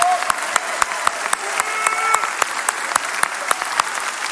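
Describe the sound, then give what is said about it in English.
An audience applauds in a standing ovation during a Sunday church service. The clapping is dense and steady, with sharp individual claps standing out for about four seconds. “Let's give the Lord a big hand. Let's give him a stand ovation for his blessing on our life.”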